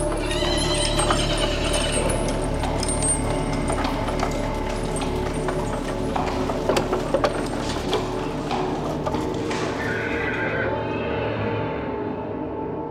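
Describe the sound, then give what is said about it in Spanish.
A pony's hooves clip-clop steadily as its rider approaches Dudfield's Yard at night, a continuous rhythmic clopping mixed with mechanical clicking and sustained background tones. “Fui cabalgando a Dudfield's Yard.”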